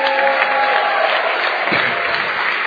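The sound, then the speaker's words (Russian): Applause from an audience at a church sermon: dense, steady clapping that holds at an even, fairly loud level throughout without a break. “Давайте подарим большие аплодисменты.”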